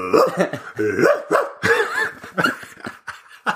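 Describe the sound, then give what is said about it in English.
A human voice imitating a dog, with a run of short, strained bark-like yelps and whiny sounds that come in quick irregular bursts, fairly loud and continuous throughout. “That's a dog. That's everyone, a classic dog voice.”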